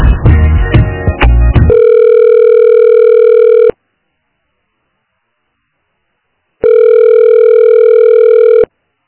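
A telephone busy tone on an office reception line: two long, steady, mid-pitched beeps separated by a silent gap of about three seconds, preceded by a brief burst of handset clatter.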